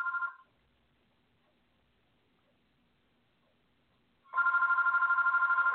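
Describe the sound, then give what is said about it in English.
A landline telephone rings with a trilling, rapidly pulsing electronic bell. One ring is cut off at the start, then comes a quiet pause before the next loud ring begins and carries on to the end. “My landline phone is ringing. I'm just going to let it ring. I'm sure you can hear it in the background.”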